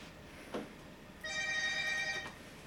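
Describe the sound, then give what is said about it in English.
A mobile phone ringtone chimes once, a bright, steady electronic tone held for about a second after a brief soft thud. “Is that your phone? It's your phone.”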